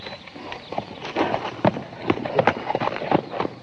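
Hooves of a horse being mounted and ridden off beat in a quick, uneven clip-clop, with many hoofbeats that grow somewhat louder partway through.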